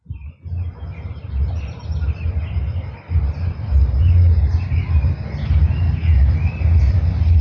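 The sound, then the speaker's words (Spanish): Different birds sing and answer one another in spring. Thin chirping calls trade back and forth above a steady low rumble that runs through the whole clip. “Estamos escuchando un contrapunto de distintos pájaros. Vemos cómo uno le canta y el otro le contesta.”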